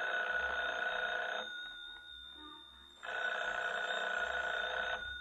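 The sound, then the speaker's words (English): A telephone bell rings in two long, bright trilling bursts with a quiet pause of about a second and a half between them. “Should I answer it? Answer it. Hold the receiver up, that's right.”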